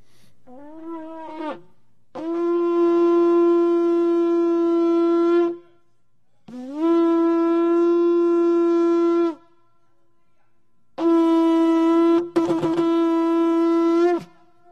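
A shofar is blown, its horn call coming as a short rising note and then three long, steady, loud blasts with silent gaps between them. The last blast is briefly broken partway through. No voices are heard.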